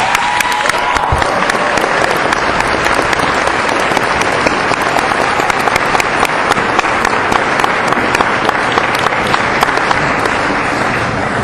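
An audience at a film screening in Savannah applauds loudly to welcome a screenwriter and film director, with dense, steady clapping sustained throughout.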